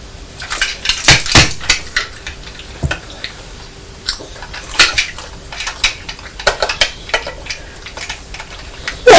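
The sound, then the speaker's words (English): Many sharp metallic clicks and clatters as a toy train runs over a spoon at breakfast, tapping irregularly in uneven bursts with no talk over them. “It's the train running over the spoon.”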